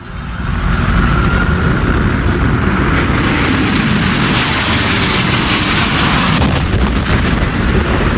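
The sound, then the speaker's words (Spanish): A hijacked airliner strikes the second World Trade Center tower in New York on 11 September 2001, a loud, continuous, roaring rumble of engine and explosion noise sustained without a break. “Este es el sonido del impacto en la segunda torre. Aquel día, aquel 11 de septiembre de 2001”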